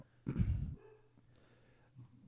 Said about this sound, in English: You guys can hear that. I know you can. Yeah. I love that dog. And she just interrupted my train of thought.